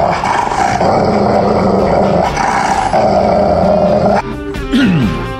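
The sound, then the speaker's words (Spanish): A dog growls in a loud, sustained, rumbling snarl that runs almost without a break, dips briefly, then resumes with a rough, falling tone near the end. “Perro.”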